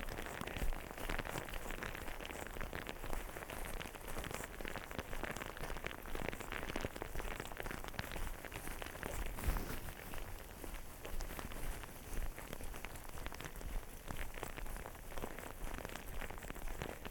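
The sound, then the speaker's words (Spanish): Small hail about the size of rice grains falls as a dense, continuous patter of tiny impacts. It is fairly faint and even, and rattles on without pause. “Bueno, el granizo no se ha hecho demasiado grande. Son como granitos de arroz.”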